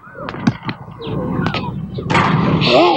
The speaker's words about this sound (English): I didn't know I could shoot like that.